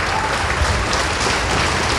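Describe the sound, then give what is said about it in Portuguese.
Congregation applauding during a church service, a dense, even wash of many hands clapping that holds steady and fairly loud from start to end, with no talk over it. “Isso, venha, venha, vamos aplaudir mais. Venha, venha, vamos aplaudir mais.”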